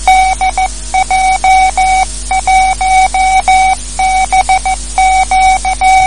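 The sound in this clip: Morse code keyed by a radio amateur answering a German ham operator: a steady mid-pitched tone broken into many rhythmic dots and dashes, loud and alone.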